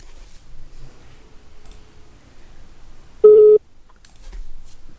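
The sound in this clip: A telephone ringback tone on a call waiting to be answered: one short, steady mid-pitched beep heard alone over a faint, quiet background.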